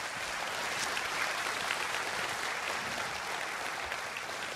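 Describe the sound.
A church audience applauding to welcome two guests during a service at Word of Life, a dense, even clapping that holds steady from start to end.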